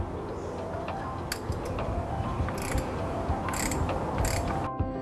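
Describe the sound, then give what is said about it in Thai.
Ratchet oil filter wrench, set to its R position, tightening the oil filter on a car engine: rapid, steady ratcheting clicks over a dense mechanical rasp, with no talk. “และทำการขันกรองน้ำมันเครื่องโดยขันกำหนดประมาณเศษ1ส่วน4รอบ”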